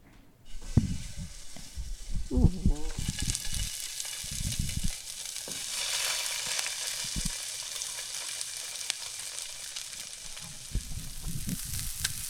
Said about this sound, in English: So Simone is heating the stove.